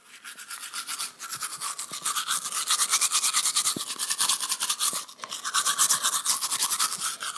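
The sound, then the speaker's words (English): Teeth are brushed with a toothbrush in rapid, rhythmic back-and-forth scrubbing strokes that stay fairly loud, broken by two short pauses partway through. “That one is brushing your teeth, I think. Correct.”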